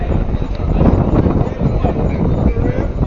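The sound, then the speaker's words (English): Strong wind blows at a baseball game, a loud, continuous low buffeting roar with no clear break. “As I'm sure you can hear the wind.”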